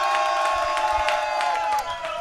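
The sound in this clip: Crowd cheering and applause from a studio audience jury voting by applause meter during an Italian debate on smoking indoors, a dense, steady roar of clapping and cheering voices that holds for about two seconds and dips briefly near the end.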